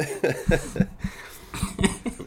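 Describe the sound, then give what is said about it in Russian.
A person with a fever coughs several times in short, harsh bursts. The coughs come in an uneven series and are moderately loud, with brief quiet gaps between them. “Я постараюсь кашлять мимо микрофона, но я ничего не гарантирую.”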